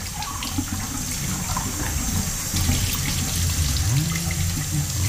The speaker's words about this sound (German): Ordentlich die Tasse ausspülen.